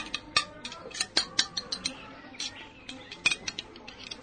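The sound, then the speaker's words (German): Pliers loosening screws and a metal rod being knocked out produce many sharp, irregular metallic clicks and taps, some bunched in quick runs and others spaced by short pauses. “Ach, gib mal die Zange. Hier, was willst du damit? Die Schrauben lösen. Jetzt kann man den Stab herausklopfen.”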